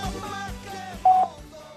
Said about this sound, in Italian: Dopo il segnale acustico, registri il suo.